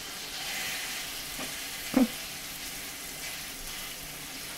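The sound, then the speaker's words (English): Food sizzles in a hot skillet, a steady, even frying hiss throughout, broken by one brief knock near the middle, with no voices. “And you want a nice sizzle in your pan. And we're going to put it underneath, flap side down into your skillet, and make sure that's tucked underneath when you put it in the pan.”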